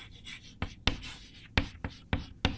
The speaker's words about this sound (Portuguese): Então podemos colocar, escrever do lado de cá, a vida da carne.